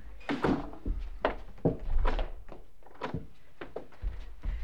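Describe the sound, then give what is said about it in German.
A wooden anteroom door is shut and locked, making a series of quiet, muffled thumps and clunks at irregular intervals. “Schließ die Tür im Vorzimmer ab, so gewinne ich etwas Zeit.”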